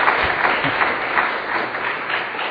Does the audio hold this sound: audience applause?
yes